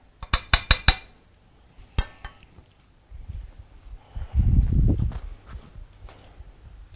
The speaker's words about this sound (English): You start stirring. And what I do now is I'm going to stir a while and then I'm going to leave and then come back.